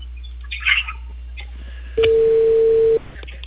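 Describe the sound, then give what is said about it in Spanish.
A steady telephone call tone sounds once for about a second as a call is placed to a number in Tarapacá. It holds one even pitch, with faint scattered sounds before and after it. “A ver, espera, me estoy llamando a la de Tarapacá.”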